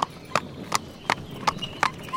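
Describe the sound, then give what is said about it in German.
Horses' hooves clop in a stable: seven sharp, evenly spaced hoofbeats in a steady walking rhythm over a low background murmur. “Wo, wo geht's denn hier rein? In den Stall? Schau mal, da vorne stehen, stehen lauter Pferde.”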